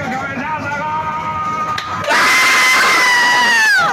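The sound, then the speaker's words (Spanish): A bus driver in Córdoba erupts in loud, sustained shouting to celebrate a third goal, his yelling growing even louder and broader about halfway through before breaking off abruptly at the end. “Mirá este festejo, perdón. A ver si lo podemos poner con de principio con audio. Es un colectivero en Córdoba escuchando el tercer gol.”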